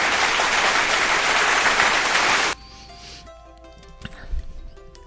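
Applause greeting a birthday dedication, a dense, steady clatter of many hands for about two and a half seconds that cuts off abruptly, followed by quieter music.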